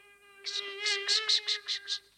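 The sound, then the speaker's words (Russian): A common black housefly buzzing, a steady whining drone that swells and fades in several quick pulsing bursts, sounding alone. “Это просто муха. Обыкновенная черная муха.”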